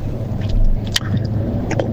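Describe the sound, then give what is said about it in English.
A motorcycle engine with an oddly strange tone, heard as a steady low droning hum with a few faint clicks and rustles over it, holding a fairly even loudness throughout. “Hoor hoe raar is die motorfiets nou.”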